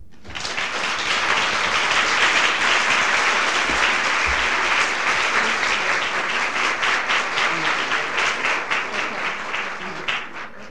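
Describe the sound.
An audience applauds to welcome a speaker, with dense, steady clapping that holds for about ten seconds and thins slightly at the end.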